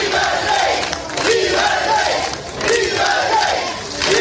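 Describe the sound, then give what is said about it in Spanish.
A crowd cheers and shouts to welcome former King Juan Carlos as he arrives at the marina in Sanxenxo. The loud, continuous roar of many voices swells and dips in waves. “Y así ha sido recibido don Juan Carlos. Es el sonido que enmarca la que va a ser sin duda una de las imágenes del día.”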